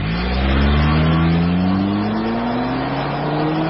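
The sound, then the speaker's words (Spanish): A car engine revving at high rpm in a motor oil advert: a loud, continuous engine roar whose pitch climbs steadily from start to finish, with no voices. “Los motores trabajan altísimas revoluciones por minuto.”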